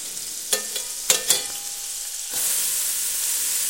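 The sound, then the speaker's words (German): Onions tipped into melted margarine in a pot: a few sharp clattering knocks come first, then a loud, steady hiss of frying that carries on without break to the end. “also lassen die Margarine schmelzen. Und, und dann die Zwiebeln”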